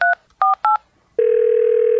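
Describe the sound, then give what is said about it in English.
Touch-tone dialing on a telephone calling a seed corn hotline: three short, evenly spaced dual-tone beeps, then a long, steady, unbroken tone that holds to the end, with no voices. “Hello, you've reached the Wiffles Hybrid Seed Corn Hotline.”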